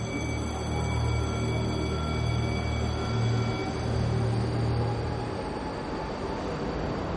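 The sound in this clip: A train at a station gives off a steady, continuous rumble with a faint high whine running through it. The level stays even throughout and no voices are heard.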